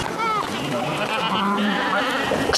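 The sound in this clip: Sheep bleating while being herded, a steady run of wavering, nasal calls that carries on loudly through the whole clip with little pause.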